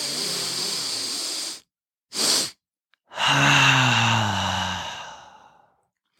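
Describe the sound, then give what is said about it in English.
Breathwork: a long inhale, then a short, sharp second inhale to fill the lungs, then a long, full exhale through the mouth. The exhale carries a voiced sighing tone and gradually fades out. “that 1 big long inhale and then a nice sharp short one to try to get those lungs maximally inflated. And then you're going to exhale all the air out of your lungs empty via your mouth.”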